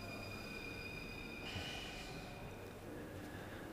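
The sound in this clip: Metro station platform ambience: a quiet, steady low rumble and hiss with a faint tonal hum running through it and a soft swell of noise near the middle, with no voices.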